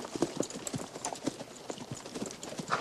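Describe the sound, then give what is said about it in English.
Horses' hooves clip-clop as riders lead a string of horses, giving many quick, overlapping hoofbeats in a loose, uneven rhythm. The knocks stay fairly faint and continuous throughout. “Now the greasy John and Davy ride into Big Whiskey, leading a string of horses.”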